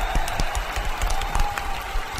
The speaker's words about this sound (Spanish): Fin. ¡Aplausitos!